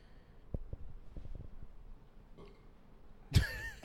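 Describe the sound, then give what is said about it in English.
A single casual burp bursts out near the end of a quiet stretch, a sudden rough, throaty sound with a voiced tone. A few faint low knocks come before it. “casual burp in the middle of your emotional talk”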